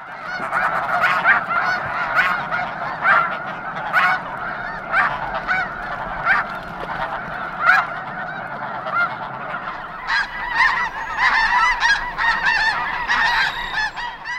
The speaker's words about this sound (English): If you recognize these distinct calls as snow geese, you're right. Large, noisy flocks of snow geese can be found in Chesapeake Bay waters in winter months.